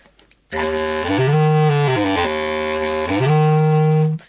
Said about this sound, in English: This is a bass clarinet. It's about the size of, bigger than a tenor saxophone. It's also based exactly on the clarinet. It's made of wood. It's a single reed instrument,